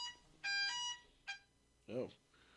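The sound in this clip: Electronic alarm beeping faintly: a long, bright, buzzy tone, then a shorter one, followed by a brief voice.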